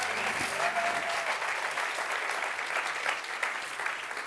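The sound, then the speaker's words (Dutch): Audience applause for musicians after a performance, an even, sustained patter of many hands clapping at moderate loudness from start to finish. “Yeah, give them all a big hand.”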